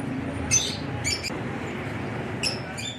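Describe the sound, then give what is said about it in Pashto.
Caged birds chirp in a shop at the bird market in Kandahar city: a few short, high, bright chirps come in scattered bursts over a constant low background murmur, with no talk. “د خپل دې شوق لکبله د کندهار ښار د مرغانو بازار کې یو دکان نیولی او دلته له ملګرو سره د مرغانو شوق کوي.”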